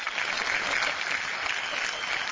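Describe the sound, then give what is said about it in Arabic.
Applause from an audience rolls on as a dense, even wash of clapping hands that stays steady and unbroken throughout. “صفقوا لي”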